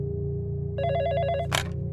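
A cellphone ringing: a bright, warbling electronic ring tone pulses for under a second over a steady low hum, then breaks off in a short sharp burst.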